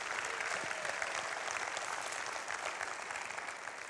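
Applause from a church audience welcoming a pastor at the start of a sermon: dense, steady clapping that stays even and fairly faint for the whole stretch, with no voices standing out.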